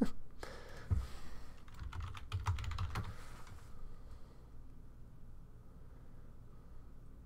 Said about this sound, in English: I'll type and. Talk at the same time.